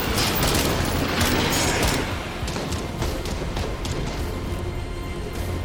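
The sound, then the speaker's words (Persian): A gunfire volley fired on command, a dense crackling burst of many overlapping shots. It is loudest for the first two seconds, then carries on at a slightly lower, steady level with no voices. “فرمان من شلیک کنید.”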